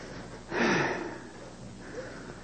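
A person gives one forceful, breathy exhale, a short rushing whoosh of air standing out above a quiet background, with a softer breath trailing afterward.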